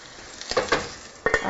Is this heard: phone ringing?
no